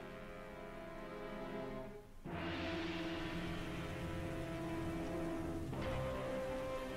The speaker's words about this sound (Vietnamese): Cơn mưa như chút nước, mưa mỗi lúc một lớn, mưa lẫn trong sấm sét và gió giật